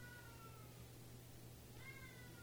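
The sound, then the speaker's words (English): A cat yells out in a hallway with two drawn-out meows, one at the start that fades away and another near the end. Both are faint over a steady low hum. “That was my cat out in the hallway yelling.”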